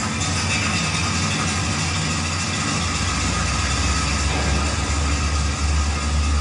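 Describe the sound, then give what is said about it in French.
A mine cage lift descending fast into the shaft gives a loud, steady mechanical roar with a deep rumble that thickens partway through, continuous throughout with no voices. “Vous savez, quand on prend la cage, nous on dit cage, on dit pas ascenseur, hein. Quand on descend, la vitesse elle est impressionnante.”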